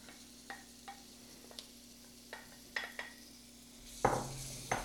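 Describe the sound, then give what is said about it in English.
Chopped celery, green peppers and onions stirred into a roux for a Cajun venison piquant: a few light clinks of a utensil against the pot, then a loud surge of sizzling as the vegetables go in. “It's a cup of celery, a cup of chopped green peppers, and 2 cups of chopped onions. You'll see that as I get it in.”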